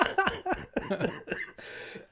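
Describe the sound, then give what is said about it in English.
A person gives a few rough coughs and throat-clearing sounds in uneven bursts, then a breathy rasp and a short sharp sound at the end. “Well, I'm sorry. I'll try to refrain. But it's really making me want to cough.”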